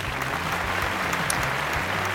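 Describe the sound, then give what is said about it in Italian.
Applause: a continuous wash of dense clapping, steady and moderately loud throughout with no clear pauses. “Applauso.”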